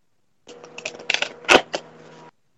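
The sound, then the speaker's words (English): Oracle cards rustle as one is pulled from a deck: a short run of papery flicks and taps lasting under two seconds, with one sharper snap near the middle, alone and fairly faint. “So let's pull that card.”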